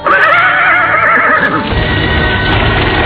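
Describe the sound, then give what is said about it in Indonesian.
A horse neighs once, a loud wavering whinny over the first half, then gives way to lower rumbling noise that may be hooves as it leaps off and runs among trees. “Endang Kusuma Dewi menepuk-nepuk kepala kudanya. Setelah meringkik sekali, binatang itu segera melompat dan berlari di sela-sela pepohonan.”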